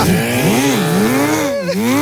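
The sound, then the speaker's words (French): Quad bike engine running loud and unbroken, its pitch repeatedly rising and falling as the throttle is worked, with no voices. “Et après, on va retrouver Gérard Larcher en quad.”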